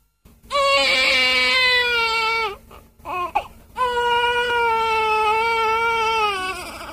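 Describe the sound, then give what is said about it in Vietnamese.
A newborn baby cries loudly in long, high, sustained wails. A short stretch of gasping, broken sobs splits the wailing before the crying resumes strongly. “Cũng trong cái gian buồng trước kia Pierre ra đời, giờ đây im ắng, chỉ thỉnh thoảng có tiếng oe oe của một đứa bé mới lọt lòng.”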